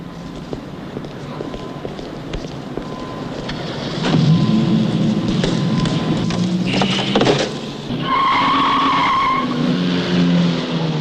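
A BMW car drives and skids: engine noise and squealing tires grow louder from about midway, ending in a sustained high-pitched squeal. No voices.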